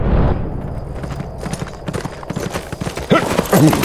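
Hooves of an Appaloosa gelding clip-clopping in a series of many irregular, fairly quiet beats that grow slightly more pronounced toward the end.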